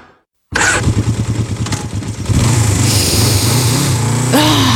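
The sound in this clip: Motorcycle engine bursts into life after a brief silence, settling into a throbbing low rumble, then revving harder and louder, its pitch climbing near the end.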